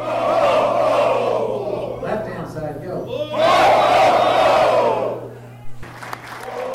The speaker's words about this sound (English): That's the sound of the 2012 graduating class of Santa University.